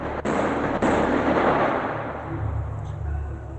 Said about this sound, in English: It means that they're a lot more frightened. Like, they can hear bombs going off, they can hear weapons.